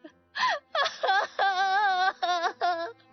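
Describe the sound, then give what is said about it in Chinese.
A girl bursts into loud crying: a sharp gasp, then long, high, quavering wails in several sustained bursts separated by brief catches of breath, with nothing else heard. “翠竹哇的一声哭了起来”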